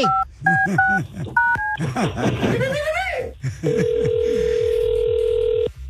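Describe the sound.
A telephone number is dialed on a touch-tone keypad: a quick series of short, bright two-tone beeps, then a steady, even tone held for about two seconds, with voices and other sound underneath.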